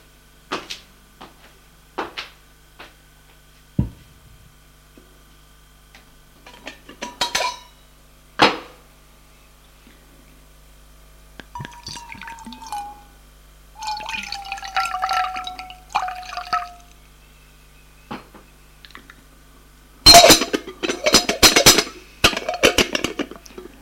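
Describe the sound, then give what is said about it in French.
A saucepan lifted from a kitchen sink and filled with water: scattered sharp metallic clinks and knocks, a few short runs of trickling water in the middle, then a louder burst of clattering and splashing near the end. “Il prend une casserole sur l'évier. Va la remplir d'eau.”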